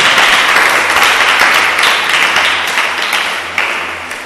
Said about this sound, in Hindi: तो खुदावन की दी गई नेमतों बरकतों के लिए खुदावन के हुजूर जरा जोरदार तालियां दें।